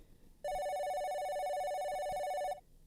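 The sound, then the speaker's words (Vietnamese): A telephone rings with one continuous electronic trill lasting about two seconds, a bright buzzing tone with rich overtones, fairly faint and alone without speech. “Tiếng chuông điện thoại vang lên, cắt ngang màn độc thoại của Nhi.”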